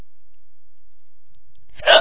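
A single short, sharp hiccup breaks an otherwise silent stretch near the end.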